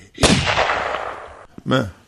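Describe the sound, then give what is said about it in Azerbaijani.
A gunshot sound effect fires once as a sharp, loud crack with a long fading tail, followed a moment later by a shorter, weaker burst. “Birdən inanılmaz bir vəziyyətdə güllə səsi gəldi.”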